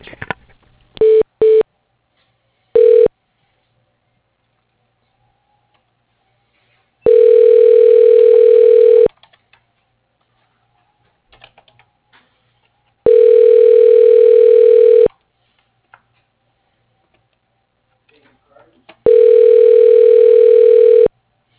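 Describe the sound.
Telephone ringback heard while a call is transferred to voicemail: a few short beeps at first, then three long steady ring tones of about two seconds each, separated by silent gaps of several seconds.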